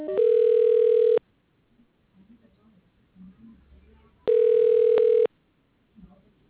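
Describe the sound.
Telephone line connecting and ringing: two long, steady ringback tones about a second each, separated by a quiet gap with faint murmuring voices.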